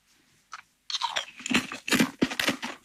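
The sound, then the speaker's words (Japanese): Someone eats crunchy kettle-fried black pepper potato chips, with one faint first bite, then many loud, crisp crunches in quick, irregular succession as the chips are chewed. “おー、いい音だ。片揚げの音するよね。すごい片揚げの音がする。普通のポテチと違うんですよね、音ね。”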